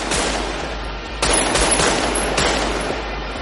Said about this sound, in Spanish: coge a la niña y abre fuego contra ellos